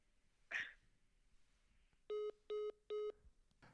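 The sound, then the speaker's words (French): A telephone rings with an incoming call as three short, evenly spaced electronic beeps that are fairly faint. A brief burst of noise comes before them, and no voices are heard. “Ah, ouais, il y a Guillaume qui m'appelle.”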